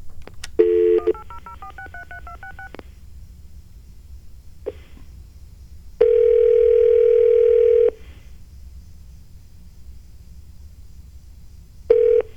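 Touch-tone dialing of a 1-800 number: a quick run of many short beeps, then a few isolated tones, one held steady for about two seconds, over faint line hiss.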